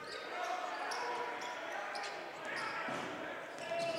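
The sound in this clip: A basketball bounces on the court during a game, its dribbles blending into a steady, loud wash of crowd noise.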